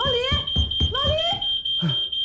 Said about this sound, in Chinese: 家里的烟雾报警响了，坏了！哎呀，这烟味。